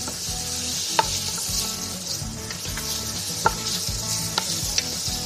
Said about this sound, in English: let's put this over medium heat and start to saute that garlic and onion.